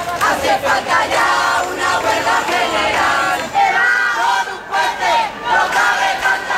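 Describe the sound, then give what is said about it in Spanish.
A crowd of thousands chants at a mass housing protest in the capital. Loud rhythmic phrases are shouted in unison, each followed by short dips between repetitions, across the whole stretch. “Sonidos de una protesta que convocó a miles de personas en la capital, 8.000 según la policía, 50.000 según los convocantes.”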